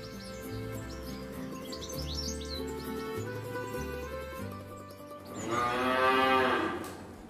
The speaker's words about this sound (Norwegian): Vi har gått ned til kalvenes fjøs. Den yngste kalven er bare fire dager gammel.